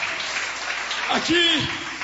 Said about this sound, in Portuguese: pode sentar e aplaudir ao Senhor.